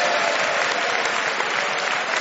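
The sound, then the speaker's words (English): Audience applause for the joint winners at the close of a comedy panel game, a dense, steady roar of clapping at even loudness throughout, with no voices over it. “A round of applause.”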